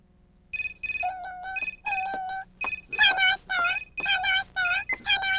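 Electronic telephone ringtone in a Korean-dubbed cartoon captured from VHS: a bright beeping melody of quick high tones repeating for several seconds over a low background hum.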